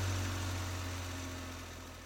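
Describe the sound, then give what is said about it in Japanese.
A truck engine drives away with a steady, low, rumbling drone that slowly grows a little fainter over about two seconds, with no voices. “そしてトラックに乗って行ってしまいました。”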